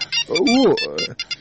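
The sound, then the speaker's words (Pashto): A phone ringing: short, high electronic ringtone pulses repeat in a regular pattern, while a lower voiced sound sweeps through the middle. “زنګ دې درته زویه.”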